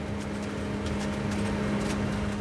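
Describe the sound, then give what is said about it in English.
A huge tomato harvesting machine working a field, carrying riding farm workers and dropping plump pear-shaped tomatoes onto a conveyor belt; a steady mechanical drone with a constant low hum and faint intermittent clatter. “Farm workers ride through a tomato field on a huge machine that practically inhales each plant, spitting plump pear-shaped tomatoes onto a conveyor belt.”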